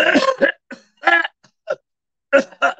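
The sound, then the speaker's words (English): A man coughs and clears his throat in several rough, irregular bursts separated by short pauses, loud and alone. “Oh my God, did he just cough?”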